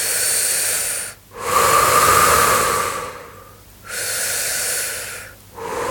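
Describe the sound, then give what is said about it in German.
Slow, deep breaths drawn into the belly during a guided relaxation exercise: a few long, airy inhales and exhales with brief pauses between them, fairly loud and without talk. “Atme wieder ein paar Mal tief in deinen Bauch hinein.”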